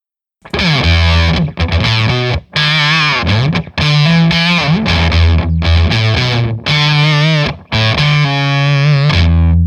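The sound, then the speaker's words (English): An electric guitar played through a fuzz octave effect pedal gives thick, buzzy, heavily distorted sustained notes and chords, loud and separated by short breaks. “And then here's the phase, or excuse me, the fuzz octave.”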